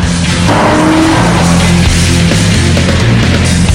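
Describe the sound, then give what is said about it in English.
Cars screech around a corner: a loud, sustained tire squeal rides over a roaring engine and rumbling road noise, continuous throughout. “The cars screech around a corner.”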